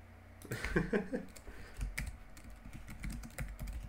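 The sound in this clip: Computer keyboard typing: many quick, irregular clicks and clacks in uneven bursts, steady throughout with no talking.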